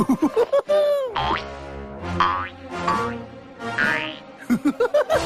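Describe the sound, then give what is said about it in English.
Cartoon boings accompany Tigger bouncing: many springy, wobbling tonal sweeps, with quick clusters of short bounces at the start and end and longer, looping boings in between. “Only Tiggers don't climb trees, they bounce them.”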